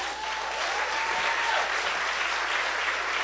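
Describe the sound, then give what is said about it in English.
Sustained applause with dense, overlapping claps, steady and loud for the whole stretch, as a man who was rescued after a medical emergency joins in clapping. “And he's clapping right there.”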